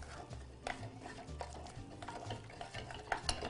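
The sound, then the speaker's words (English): Egg being folded into choux pastry dough: faint, soft, continuous stirring with small irregular clicks and scrapes of a utensil in the bowl. “So now that we have one egg in, we can add our second egg. And we can just fold this last egg in.”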